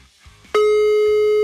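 A steady electronic telephone line tone on an outgoing call that nobody answers. It starts abruptly after a short, quiet lead-in and then holds at one loud, constant pitch to the end, with no talk.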